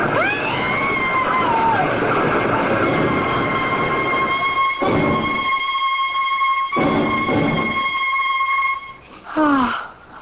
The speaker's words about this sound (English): I can't stop the train. It's moving, lady.